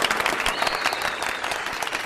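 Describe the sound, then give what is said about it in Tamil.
An audience applauds in praise of two callers, dense and steady clapping from many hands that fills the short stretch at an even, lively level. “அந்த 2 காலர்ஸ்க்கு நம்ம என்ன பண்ண போகிறோம், ஒரு பெரிய பாராட்டுக்கள்.”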